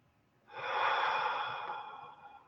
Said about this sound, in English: Feel the breath. Feel the breath fill you completely as you take in that I am.